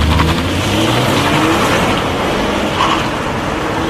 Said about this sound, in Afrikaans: Polestar weergawe loop dat dit bars. Sy 2 liter turbo petrol sorg vir 186 kW en 400 Nm wringkrag.